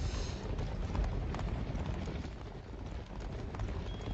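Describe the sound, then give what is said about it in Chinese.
Horse hooves clip-clopping, the hoofbeats blurred within a continuous, dense roar of wind-like noise that stays level throughout, with no distinct individual strikes. “哎，听到了吗？好像是马蹄声。”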